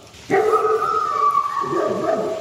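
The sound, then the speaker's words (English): Dogs in the distance in woods on a rainy November day. A sustained, howl-like cry starts abruptly and holds a steady pitch, and a lower, wavering cry joins in later. “you can hear that sound of some mad dogs in the distance.”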